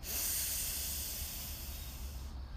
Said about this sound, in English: Breathe in and out.